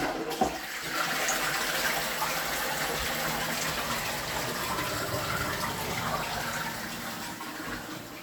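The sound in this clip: A toilet flushing: a steady, loud rush of water pours for about eight seconds with no letup and fades slightly at the very end, with no voices over it.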